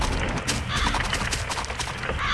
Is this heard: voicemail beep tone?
no